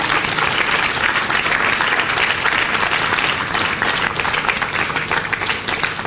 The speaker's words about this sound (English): So you should give them a hand.